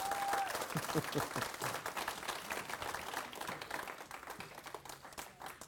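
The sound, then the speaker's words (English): A church audience claps its hands in sustained, dense applause, a steady crackle of many overlapping claps that slowly fades over several seconds. “Give the Lord a hand clap. Let him know you're alive.”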